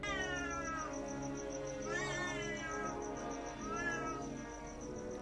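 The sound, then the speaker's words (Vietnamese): A cat meows at midnight in a ghost-story setting near a cemetery: a long, wavering caterwaul with two louder swells that rise and fall in pitch, heard over a steady droning background. “Cứ thử tưởng tượng nửa đêm mà nghe cái tiếng mèo kêu thì có mà sợ chết khiếp.”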